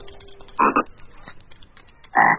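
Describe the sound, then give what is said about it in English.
Frogs croaking after hopping out from under a bed: a loud, rasping croak broken into a quick double pulse, a quiet pause, then a second throaty croak. “three frogs hop out from under the bed and crouch on the carpet, staring at me with large black eyes.”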